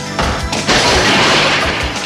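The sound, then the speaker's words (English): Someone crashing through the boarded opening of a warehouse at the top of a loading ramp: a few dull thuds lead into a loud, dense crash of breaking boards that stays noisy and cluttered to the end. “With a rapid, limping gait, Lucas runs up a loading ramp and crashes through a warehouse's boarded opening.”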